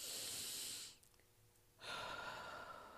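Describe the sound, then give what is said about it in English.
Slow, faint breathing is heard as two long, airy, hissing breaths separated by a quiet pause of about a second. No voices accompany it. “So I want us to take a minute and let's breathe.”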